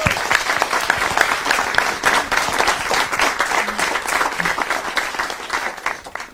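Dense applause from an audience welcoming the chairman of a Danish doctors' association against nuclear weapons as he takes the floor. The clapping is steady and loud for about six seconds, then thins slightly toward the end.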